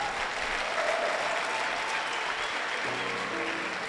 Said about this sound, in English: Keep clapping your hands.